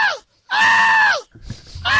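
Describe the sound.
A man screams in a comedy scene, with three loud, drawn-out, high-pitched yells separated by short pauses. The first two trail off downward in pitch.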